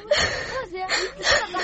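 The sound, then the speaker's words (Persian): A girl cries in short, broken sobs with gasping breaths and a high, wavering whimper, a few bursts of weeping in under two seconds. “گریه نکو قربان او چشمایش پرد شوام، مرام گریه دادی.”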